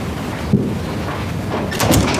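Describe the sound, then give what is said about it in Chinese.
A door is shut: a short dull knock early, then a louder clunk with some rattle near the end, over a low steady background. “把门关上。”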